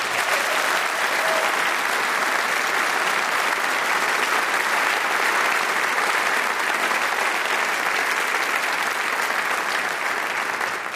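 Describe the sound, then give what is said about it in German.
Sustained applause from a concert audience for a saxophone soloist after a big band piece, steady and loud throughout without a break. “Und einen Riesenapplaus erstmal für den Solisten des letzten Stückes.”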